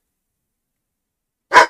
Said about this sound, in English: Listen, why are you barking? Woof. Woof indeed.